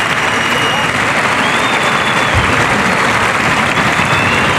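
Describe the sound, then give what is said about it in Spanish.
A bullring crowd gives a loud ovation to bullfighter Juan Ortega after the bull collapses, with dense, steady applause filling the whole stretch without a break. “Bueno, pues el público le ovaciona. Salen algunos pañuelos.”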